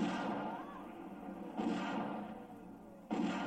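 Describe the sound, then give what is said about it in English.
Three pistol gunshots, spaced about a second and a half apart, each a sharp boom with a long decaying tail, fairly faint overall. “Bam! And, oh, sugar. I'm mildly annoyed by this pistol.”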